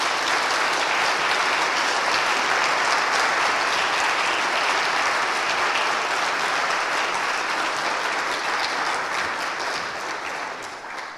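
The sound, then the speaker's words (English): Audience applause welcoming a speaker at a Goshen College convocation: dense, sustained clapping from a crowd that holds steady throughout and tapers slightly at the end. “So now, please join me in giving a warm Goshen College welcome to Sarah Augustine, who will be speaking on.”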